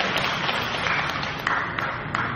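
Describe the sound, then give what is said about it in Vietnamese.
Audience clapping during a Buddhist dharma talk given in Vietnamese: a dense, steady patter of hands with a few sharper individual claps standing out. “Vỗ tay đi.”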